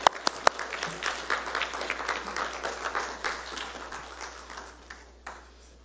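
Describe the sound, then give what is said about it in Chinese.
Church audience clapping to welcome the children's ministry as they come forward to sing for Mother's Day. A few sharp separate claps open into quiet, thick applause that thins and fades, with one last clap near the end. “我们请儿童事工到前面来，他们进场，我们给他们热烈掌声来欢迎他们，好不好？”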